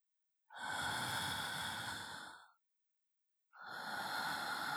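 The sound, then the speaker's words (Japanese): Slow, deep breathing during a guided breathing exercise: two long, airy breaths. The first lasts about two seconds and fades, and after a silent pause the second begins. “ゆっくり呼吸の回数を数えてくださいね。私と一緒にゆっくり呼吸しましょう。”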